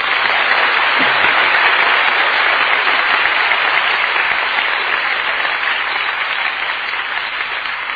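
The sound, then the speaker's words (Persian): An audience in a class claps their hands in steady, dense applause that holds level for the whole stretch, easing slightly toward the end. “ولی دست که میتونیم قشنگ بزنیم اشکالی”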